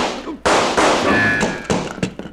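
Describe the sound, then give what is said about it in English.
Gunshots crack out in a quick volley, several sharp, loud blasts close together. Each blast is followed by a short, ringing decay. “that kind of shooting I never seen before”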